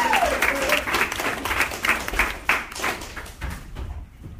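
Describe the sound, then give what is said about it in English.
Audience applause at a comedy show for the next comedian, with brisk, dense clapping that tapers off and fades out toward the end. “And let's get a big round of applause going for your next comedian, Ian Ellis.”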